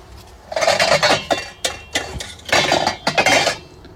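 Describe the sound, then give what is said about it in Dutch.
Pans and a kitchen sieve clatter and clink while a liver mixture simmers over a medium-high flame. Several bright, metallic bursts of handling come in uneven groups, loud and with no voices. “Terwijl dit dan middelhoog vuurtje eventjes verder gaat doorsudderen, pakken we ondertussen een zeef.”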